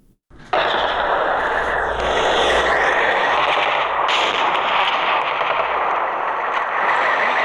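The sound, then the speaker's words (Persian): Heavy gunfire from clashes between Afghan and Pakistani forces in Barikot, Nari district, Kunar province, erupts after a brief pause into a loud, continuous automatic rattle that keeps going without a break. “این صدای که درگیری ها در ساحه بریکوت و دو کلمه ولسوالی ناره ولایت کنر است.”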